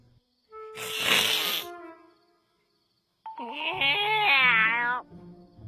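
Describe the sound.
A voice imitating a cat: a short, breathy cry, then after a pause a longer, wavering, meow-like call that rises and falls in pitch, heard alone without other talk.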